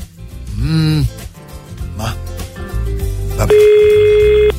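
A telephone rings with a steady electronic ringing tone that comes in near the end, loud over a busy, cluttered background of other sounds.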